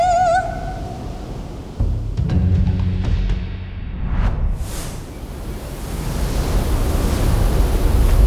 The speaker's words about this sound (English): Oh no! That wave is huge! It's coming right for us!